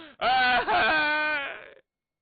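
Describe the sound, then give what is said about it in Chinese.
A man's voice imitating loud crying in a storytelling performance, one sustained, wavering wail with a brief dip in the middle before it trails off into silence. “王世充哭了，怎么的？”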